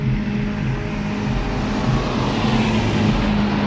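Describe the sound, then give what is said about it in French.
A car drives without stopping along a road through the desert, giving a steady, unbroken roar of engine and road noise that stays loud and even throughout, with no voices. “Tom White roule sans s'arrêter.”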